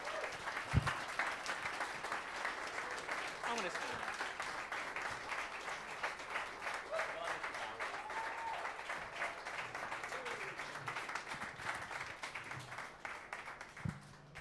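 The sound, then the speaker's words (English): An audience at a Finding Dory filmmakers event gives a warm round of applause to welcome three guests, steady dense clapping that holds at an even level throughout. “So, please welcome, with the warmest round of applause possible, three very important people.”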